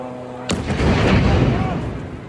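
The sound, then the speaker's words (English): An Israeli airstrike explodes near a hospital in Rafah by the Egyptian border. One sudden, sharp blast rolls into a long, heavy, low rumble that stays loud to the end. “Our team was filming inside a hospital in Rafah near the Egyptian border when a series of Israeli airstrikes hit nearby.”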